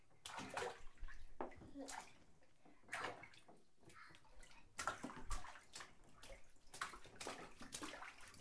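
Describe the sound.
A child splashing water in a bathtub, with many irregular splashes and sloshes in quick bursts, some louder and some softer, continuing throughout.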